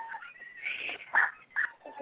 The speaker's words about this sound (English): shut those dogs up, or I'll stick my cats on them, and they will eat them.